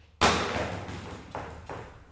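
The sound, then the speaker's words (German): A sturdy barrel-shaped LED solar lamp with a robust housing is slammed onto the floor: one sharp, loud crash that rings and decays, followed by a few softer knocks. “lässt eine Leuchte auf den Boden knallen. Das ist eben der Effekt.”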